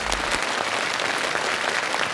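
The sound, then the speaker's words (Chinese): An audience applauds after a demonstration of design software: a steady, uniform clatter of many hands that holds at the same level for the whole stretch. “掌声鼓励一下，还真不错。”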